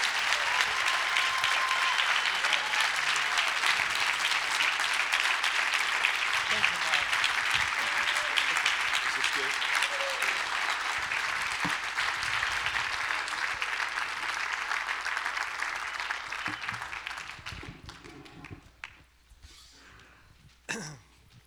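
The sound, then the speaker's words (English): An audience applauds to welcome Pastor Frank: sustained, dense clapping for about seventeen seconds that then fades out, followed by a few quieter scattered noises. “I just ask you to give a warm welcome to Pastor Frank and uh, really thank him for being with us.”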